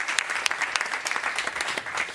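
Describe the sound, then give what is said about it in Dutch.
Audience applause, many irregular handclaps crackling at a moderate level with a few sharper claps standing out, with no talk over it. “Thor Mellemans, geef maar een applaus.”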